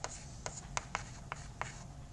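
Faint writing as an equation for spring forces is written out: a series of short, scratchy strokes in an irregular rhythm over low background noise, with no talk.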